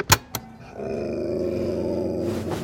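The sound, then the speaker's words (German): A dog lying on a bed growls low and steady for a couple of seconds, after two brief knocks. “Es tut mir leid, aber du hast ihn ja gehört. Wer knurrt, muss runter vom Bett.”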